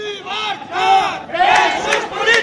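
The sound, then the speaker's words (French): A crowd chants a slogan for political prisoners at a Catalan independence rally, many voices shouting in unison in loud, repeated rhythmic phrases. “Liberté pour les prisonniers politiques, c'est le slogan du jour. Au milieu de la foule, à côté des drapeaux catalans, des dizaines de pancartes avec les visages des 9 dirigeants indépendantistes aujourd'hui emprisonnés.”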